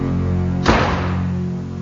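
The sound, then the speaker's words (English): A door is closed with a single dull, heavy thud over a steady tonal background, and nothing else stands out before or after it. “Close that door.”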